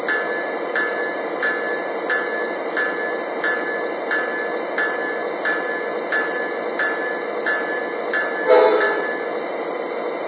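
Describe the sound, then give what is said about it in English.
A priority freight train passing, with steady rhythmic clacking of wheels over rail joints, repeating at an even pace throughout, and one louder clank near the end. “like we've been switched to the sidings. Let a priority freight pass.”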